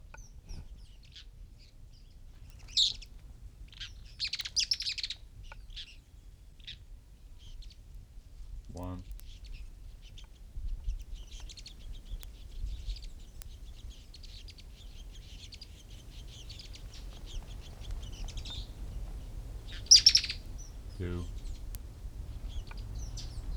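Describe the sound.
Mouse-colored tyrannulet song from a pair of birds feeding young: short, high-pitched chirping phrases come in a few scattered bursts, fairly faint over a low steady background hum.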